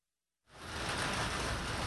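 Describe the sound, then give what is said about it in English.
Rain pelting a sidewalk along a street in Hollis, Queens, a flood-prone neighborhood. A short silence gives way abruptly to a steady, dense hiss of falling drops that stays even and fairly loud to the end. “Rain is pelting the sidewalk along 183rd Street in Hollis, Queens.”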